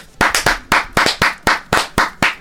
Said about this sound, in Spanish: Por favor, aplausos.